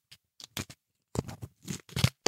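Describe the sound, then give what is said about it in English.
A football sticker pack is opened and the stickers slid out, making many short, crisp paper crinkles and slides. They come in irregular bursts with silent gaps between them. “Just slide the stickers out. I'm making it interesting for the listener.”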